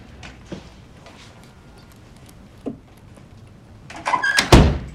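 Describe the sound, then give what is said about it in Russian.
A front door being shut from inside an entrance hallway: faint soft knocks early on, then a louder cluster of clunks and rattles near the end. “Она медленно входит в прихожую и закрывает за собой дверь.”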